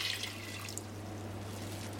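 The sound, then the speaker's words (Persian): Cold water poured into a cooking pot holding a beef tongue and bay leaves, a steady, fairly quiet splashing and trickling that is slightly stronger at the start. “ما به این زبون 1 لیتر آب اضافه میکنیم، آب سرد، حتما از آب سرد استفاده کنیم.”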